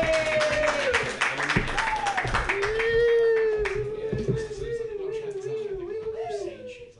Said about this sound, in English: Put your hands together for your next comedian, Jonah Pollock.